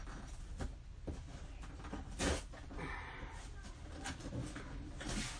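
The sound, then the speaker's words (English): Packing tape tears away from a cardboard box as it is opened, giving quiet, uneven crackling rips and scuffing rustles scattered throughout, with one sharper burst in the middle. “Rip the tape just away to get come up this way. Hold on.”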